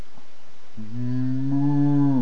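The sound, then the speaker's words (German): A single cow lets out one long, low moo that starts after a short quiet pause, swells to full loudness and holds steady before cutting off near the end. “Und was ist das für ein Plöken von Schafen in meinen Ohren und das Brüllen von Rindern, das ich da höre?”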